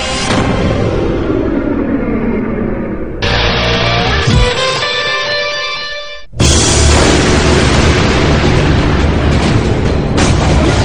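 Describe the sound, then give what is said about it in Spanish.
A volcano erupting in Iceland, heard as a loud, continuous, deep booming roar with dense rumbling noise that shifts abruptly in intensity. “Estalla un volcán en Islandia. Arroja fuego y cenizas y ruge haciendo temblar la tierra.”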